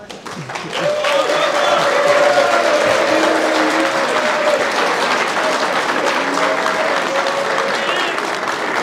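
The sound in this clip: An audience welcomes a speaker to the stage with loud, sustained applause that swells within the first second and holds steady, with voices heard over the clapping.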